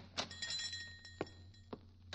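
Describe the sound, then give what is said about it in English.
A few sharp, irregularly spaced knocks at a door in an old radio comedy drama, sounding over a steady low hum with no voices. “Hey, look, somebody's at the door.”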